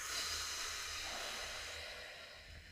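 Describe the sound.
A forceful exhale, as if blowing out candles, is done as an abdominal breathing exercise. A continuous breathy hiss of air starts strong and slowly fades over nearly three seconds, quiet overall with no talking.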